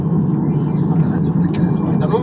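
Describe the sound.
Dense, steady road rumble from a car driving on a bumpy, uneven road with cruise control engaged, a continuous low roar that stays level from start to finish.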